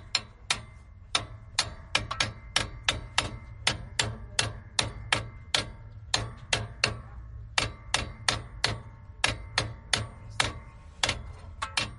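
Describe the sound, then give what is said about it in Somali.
Metal is hammered in a vehicle repair garage in Jigjiga where mechanics fix and dismantle vehicles. Many sharp, ringing strikes come in uneven bursts with short pauses between runs. “Dhammaan xirfadlayaasha ka shaqeeya goobtani waxay ku mashquulsan yihiin cilad bixinta gaadiidka ee sida furfurista iyo garaacista biraha.”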